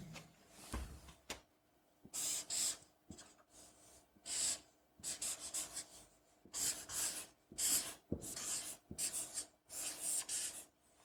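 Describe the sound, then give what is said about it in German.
A pen drawing on a whiteboard: many short squeaky, scratchy strokes in bursts separated by brief pauses, with faint rubbing and knocks between them. “Und diese zwei Punkte, die werde ich einmal mit dem Stift hier an das Whiteboard malen.”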